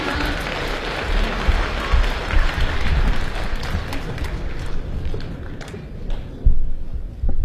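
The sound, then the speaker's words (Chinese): Audience applause greeting a famous crosstalk performer and his disciple as they take the stage, a dense, steady roar of many hands clapping that holds at a loud, even level for several seconds, swelling once briefly near the end. “咱们掌声有请著名相声表演艺术家李金斗老师和他的高徒刘颖，有请二位。”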